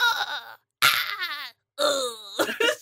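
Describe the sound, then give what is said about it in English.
Giant spiders' dying screeches from the film Eight Legged Freaks: three shrill, wavering wails separated by short silences, the last one breaking into a ragged squawk. “some of these spiders, when they were dying, just decided, you know what? If I'm going to die, I'm going to die with the best death noises.”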